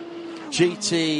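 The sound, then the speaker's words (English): GT3 race cars sweep past in a battle for third, a Ford Mustang among them, giving a brief loud engine roar whose tone dips as the cars go by. “This battle for third going past Ford Mustang”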